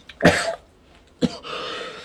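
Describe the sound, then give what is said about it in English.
Two rough, dry coughs about a second apart from someone with a lingering cough. Each is a short, sharp burst, and a hoarse, breathy rasp follows the second. “Oh, this cough better go away.”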